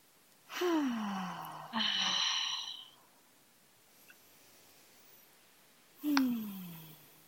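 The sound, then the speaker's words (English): Deep breaths in a guided exercise, drawn in through the nose and let out through the mouth. Three breathy rushes of air with a quiet pause between the second and third. “And if you're listening, you can join us in just a few deep breaths. Just inhaling through the nose and slow exhale out the mouth.”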